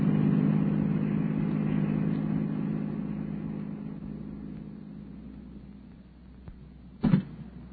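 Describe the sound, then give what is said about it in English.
A car accelerating away, its engine a steady low rumble that gradually fades, followed by one brief, sharp knock near the end. “Step on the gas”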